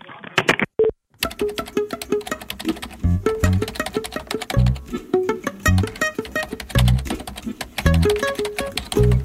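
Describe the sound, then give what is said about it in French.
Keys clatter as an email is typed on a computer keyboard, a quick, irregular run of many clicks over a steady tonal background. “j'écris aussitôt le mail à monsieur Copé”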